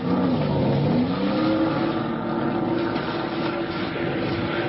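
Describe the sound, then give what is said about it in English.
A motorboat's 230-horsepower Johnson outboard engine roars loudly, its pitch dipping and climbing early before settling into a steady, powerful drone. “That boat of Alex's is the fastest one of the lot. 230 horsepower Johnson's.”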